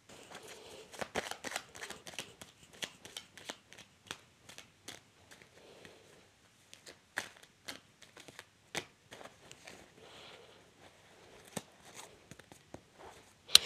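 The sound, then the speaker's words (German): Tarot cards shuffled by hand for a reading: a quiet, irregular run of many crisp riffling clicks and taps, with short pauses between bursts and no voices. “Ich mische die Karten.”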